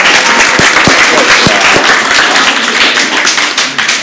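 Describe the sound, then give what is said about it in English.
A studio audience gives itself a round of applause, loud and dense, with a few sharper individual claps standing out early before the sound settles into a steady roar of hands. “Who in our studio audience here, which is by the way, the best looking studio audience in podcast history. Give yourselves a hand.”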